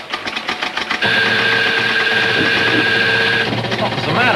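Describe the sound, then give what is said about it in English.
Mechanical clatter of a stock ticker tape machine in an office: about a second of rapid rhythmic clicking, then a steady loud running hum with a thin high whine that holds for a couple of seconds before the clatter returns. “The man returns to reading a ticker tape.”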